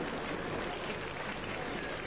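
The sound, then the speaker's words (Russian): Audience applause, dense and steady clapping from a crowd that holds an even level across the whole short stretch. “Вот мне нравится, что вы аплодируете”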